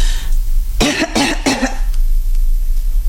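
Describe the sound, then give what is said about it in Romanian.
Three short, harsh coughs in quick succession from a patient asked to cough during a medical examination, each burst loud and abrupt. “Tușiți? Încă?”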